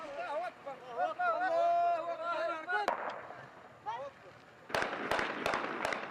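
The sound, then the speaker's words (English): Gunshots fired into the air by armed fighters celebrating their takeover of a city in northern Mali give several sharp, loud cracks that come in a quick burst near the end, under and between excited voices. “They fire shots into the air to celebrate their takeover of the city.”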